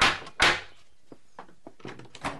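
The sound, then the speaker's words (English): A doctor's door being opened, starting with two firm thuds followed by several faint clicks and light rattles, all fairly quiet. “The doctor opens the door.”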